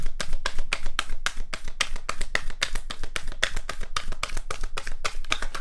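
Message cards being shuffled and one drawn: a dense, continuous run of crisp papery flicks and taps in quick rhythm, steady and fairly loud throughout, with no voices.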